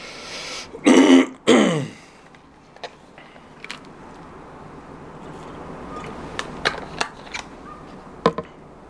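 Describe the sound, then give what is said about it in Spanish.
Throat clearing by a lecturer during a class on private international law: two loud, rasping bursts in quick succession, then quiet broken only by a few faint clicks. “Permítanme que voy a refrescar la garganta un momento.”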